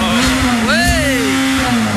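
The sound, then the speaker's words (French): A Ferrari car engine revs, holding a loud, steady hum while one rev swells up in pitch and then eases back down. “Doucement avec le moteur, s'il te plaît.”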